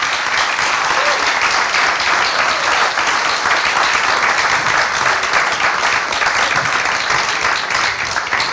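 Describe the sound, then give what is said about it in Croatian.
Audience applause for two comedians at a literary book promotion: dense, continuous clapping, loud and even for several seconds. “Još jedan veliki aplauz za Boru Kontića i Seju Seksona.”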